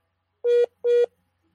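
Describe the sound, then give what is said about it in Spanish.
Incoming telephone call tone: two identical steady electronic beeps, each about a fifth of a second long, separated by a short gap and then followed by silence. “está entrando una llamada telefónica”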